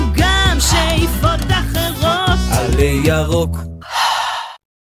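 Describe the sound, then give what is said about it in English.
A sharp, audible breath closes a 2006 election campaign jingle for a small legalization party. Tuneful sung music with layered voices runs throughout, then the loud breath comes near the end before the sound cuts off. “why is this so clever? You heard the breath.”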